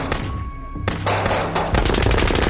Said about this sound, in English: A synchronized volley of shots erupted, each bullet glowing faintly as it left the barrel.